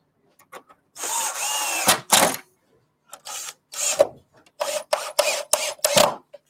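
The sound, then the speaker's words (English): A drill boring into bamboo before screwing: several short whirring, grinding bursts separated by brief pauses, fairly faint. “Always drill before you screw bamboo to stop your screws slipping out of position.”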